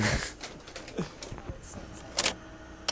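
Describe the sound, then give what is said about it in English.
A videotape sliding into the slot of a satellite transmission machine, with a run of light mechanical clicks and clatter and a couple of louder clunks near the end. “That's the tape going into slot.”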